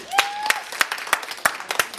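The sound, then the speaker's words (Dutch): Applause from a studio audience for a co-presenter during a radio fundraising broadcast, heard as a steady run of sharp, separate hand claps at an even pace, fairly loud and with no talking. “Mag even een applaus voor Anne Fleur?”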